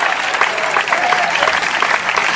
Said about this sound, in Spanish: Después que se aplausa el Cristo de la gloria.